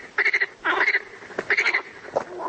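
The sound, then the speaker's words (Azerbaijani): A frog croaks in several short bursts of rapid, rasping pulses, with brief pauses between them. “Onlar şəffaf qurbağalar yaradıblar.”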